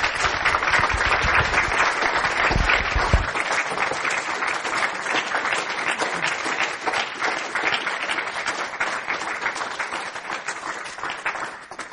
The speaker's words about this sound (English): And let's give her a good round of applause and then have lunch.